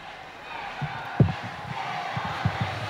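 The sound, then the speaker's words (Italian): The faithful crowd in St Peter's Square makes a low, faint murmur, with a few scattered shouts and calls rising briefly above the steady hubbub. “sentite il boato dei fedeli in piazza San Pietro, ascoltiamo.”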